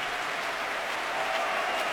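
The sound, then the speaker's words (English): Concert audience applauding after an orchestral performance under Riccardo Chailly, a dense, steady roar of clapping that stays even and sustained throughout. “And Ricardo Chailly asking his players to rise again to accept the applause.”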